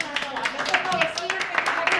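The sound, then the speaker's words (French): Scattered hand clapping from village residents applauding a neighbour woman who has brought about ten home-cooked hot dishes for displaced people; a few sharp claps sound under and between people talking, fairly quiet overall. “Allez, on applaudit cette dame.”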